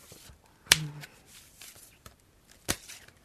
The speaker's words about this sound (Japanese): はい、またカード切ってください。カード切って。